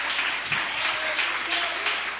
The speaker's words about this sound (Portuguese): Vamos receber o servo de Deus com palmas e glória. Palmas e glória, bem alegre para louvar Jesus.